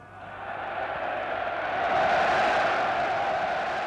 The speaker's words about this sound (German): 100.000 jubelten Adolf Hitler auf dem Zeppelinfeld zu.